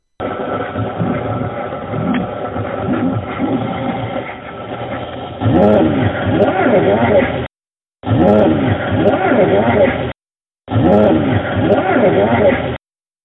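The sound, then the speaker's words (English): A car engine hums steadily as it drives around a parking garage, with swelling whooshing surges in the second half and two brief silent gaps. A voice is present under the engine noise. “Remember, I'm in a garage going around looking for a parking spot.”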